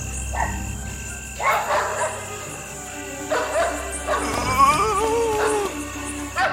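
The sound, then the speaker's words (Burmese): Dogs barking at cats: several sharp barks mixed with whining yelps at an uneven pace, over a steady, high insect chirping. “ခွေးတွေဟောင်းနေလို့ပါ”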